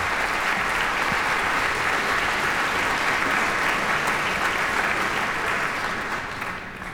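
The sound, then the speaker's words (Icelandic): Concert audience applauding a premiere performance: dense, steady clapping that holds at a constant loudness for several seconds before tapering off at the end, with no voices standing out. “taka við fagnaðarlátum tónleika gesta”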